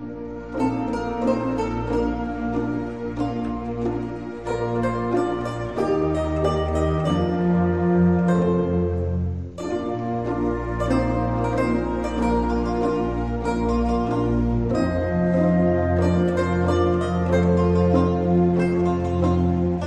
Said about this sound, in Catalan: Utilitza també del Barbero de Sevilla, d'en Paisiello, un segon moviment d'en Triumf, de, que també està molt bé i que sona així.